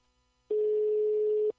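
One telephone ringback tone sounds after dialing a number to reach a caller, a single flat, steady mid-pitched beep of about a second on an otherwise quiet line.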